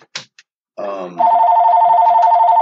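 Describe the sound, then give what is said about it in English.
Telephone ringing: a loud, steady electronic tone with a faint rapid pulsing that starts partway through and holds to the end. A few short, scattered noises come before it. “I'm going to turn this phone off.”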